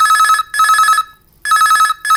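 A telephone ringing loudly in a bright trilling double pattern: two rings close together, a short pause, then another pair beginning. No voices are heard.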